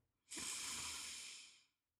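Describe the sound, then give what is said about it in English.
A single long, slow exhale through the nose during a breathing exercise: a soft, airy hiss that starts abruptly, holds steady for about a second and a half, then tapers off into silence. “And exhale through the nose. Inhale through the nose.”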